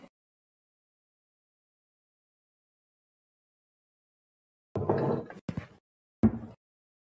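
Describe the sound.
A container is put into a cupboard. After a long silence comes a brief cluster of knocks and scrapes, then one short knock.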